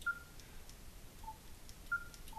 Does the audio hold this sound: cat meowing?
no